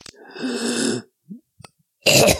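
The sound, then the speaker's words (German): Dry coughing from someone with a high fever and rattling, congested lungs: a long, harsh, rasping burst, a few faint small sounds, then another loud cough at the end. “Bisschen trockener Husten”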